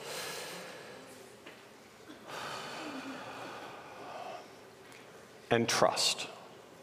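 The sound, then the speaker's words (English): A person takes a deep breath, with long, faint, airy inhales and exhales, then ends with a brief, louder snort-like burst of breath. “I want to take a pause and a breath, deep breath.”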